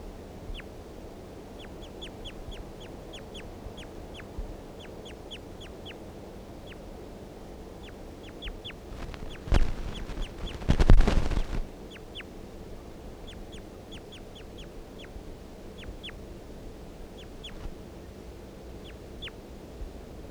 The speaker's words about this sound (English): Start recording bird 336 again.